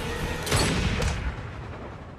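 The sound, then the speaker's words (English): Gunfire from an action film scene, a couple of heavy booming shots with a deep low-end thump that quickly fades into a dull rumble. “Take the shot. Take the shot. I said take the shot. I can't. I'm in it, Bond. Take the bloody shot.”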